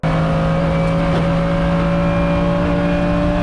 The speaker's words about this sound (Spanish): Es el motor del Mercedes SLS AMG versión GT3 a 280 kilómetros por hora.